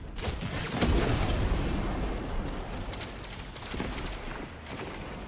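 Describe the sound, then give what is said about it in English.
Pulse rifle gunfire in a Destiny 2 Crucible match: a sustained, dense rattle of rapid shots and blasts that stays loud throughout, with occasional sharper bursts standing out. “Oh my god! What is with that pulse rifle? He's so accurate!”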